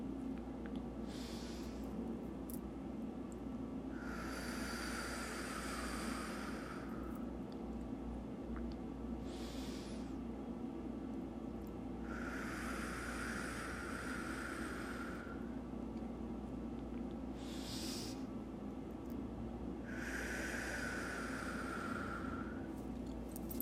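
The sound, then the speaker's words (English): Three slow, deep breaths at the start of a guided session, each a short inhale followed by a longer, airy exhale, spaced evenly and soft over a steady low hum. “We're going to start off by taking 3 deep breaths.”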